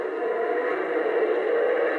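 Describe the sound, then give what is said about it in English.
A hissing Harry Potter basilisk toy gives a steady, airy hiss that holds at a constant level for the whole two seconds, with no pauses or breaks. “so this is my hissing basilisk from Harry Potter. And he hisses.”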